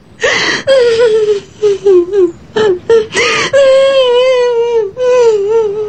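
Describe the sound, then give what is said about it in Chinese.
A person crying and sobbing: long, wavering wails broken by short, choked sobs and gasps. The cries rise and fall unevenly and are loud throughout, with no clear words. “哎，还哭啊？别哭了，你在哭，他在笑，这眼泪都在嘲笑你，你还哭？”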